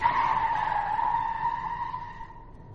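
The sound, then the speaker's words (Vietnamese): Car tyres screech as a car swerves toward a cliff on a mountain road to avoid an oncoming pickup truck, a sustained high squeal that holds steady before fading at the end. “sau cú lách xe vào vách núi để khỏi va chạm với chiếc bán tải chạy ngược chiều”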